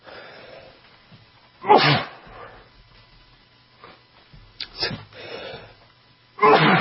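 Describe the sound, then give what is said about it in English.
A person sneezes a few times, each a sharp loud burst separated by quiet breathing and low background noise. “You never can sneeze on the break. It's always during the show.”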